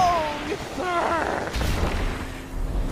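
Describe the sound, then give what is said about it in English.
A grenade explodes in a video game as a single low, broad boom midway, trailing off in a rumble, with voices talking before it. “Dang it, I got hit by the grenade.”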